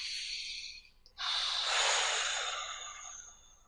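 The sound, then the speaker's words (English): A deep breath taken during a guided breathing exercise: a soft airy breath comes first, then after a brief pause a long, loud, rushing breath swells for about two seconds and tapers off, with no speech. “Take a breath.”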